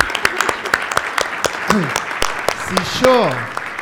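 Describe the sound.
Audience applause at a conference, a steady patter of many hands clapping throughout, fairly loud, with a voice briefly rising over the clapping near the end.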